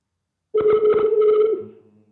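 Ringback tone while calling someone back on the telephone, one buzzy, steady mid-pitched tone about a second long that then slides into lower, fading hums.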